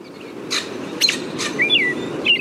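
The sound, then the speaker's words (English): Scolding call of an adult male American robin: three sharp, abrupt call notes ring out, followed by thin, high whistled phrases, all fairly loud over a low background hiss. “This recording starts out with the typical spring song of the American robin and is followed by the scolding of an adult”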